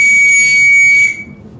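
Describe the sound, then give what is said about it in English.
A single shrill whistle blast holds one steady high tone for about a second, then cuts off abruptly, leaving a faint low rumble behind. “so I blew the whistle”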